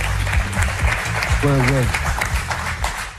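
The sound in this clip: Studio audience applause welcomes a guest onto a French radio show. Brisk clapping runs throughout, and a voice briefly rises over it in the middle.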